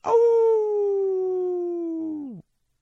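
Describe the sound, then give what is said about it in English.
A single wolf howl, used as a sound effect in a tabletop role-playing game, holds a long, steady, slowly sinking tone for about two seconds, then drops sharply and cuts off. It is heard alone. “There are times that you all do hear the wolf's call”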